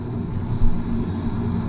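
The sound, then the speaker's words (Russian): Airplane engine running as the plane turns and taxis toward the runway: a steady low rumble under a constant high, thin whine, with no clear rise or fall in pitch. “Включается двигатель. Вот, наш самолет должен развернуться и двинуться к взлетной площадке.”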